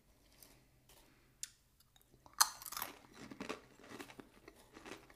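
Crunchy crisp rings are chewed, with faint clicks first, then a sharp bite crunch followed by a run of quieter, irregular chewing crunches and no talk.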